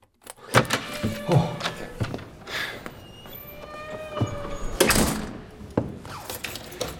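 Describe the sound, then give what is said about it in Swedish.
A locked door rattles and thumps as someone tugs at the handle and lock. Irregular clattering knocks and sharp metallic jolts come in bursts, with no talking. “Jag kommer inte ut! Har de låst in mig? Vad är det här för jävla lås?”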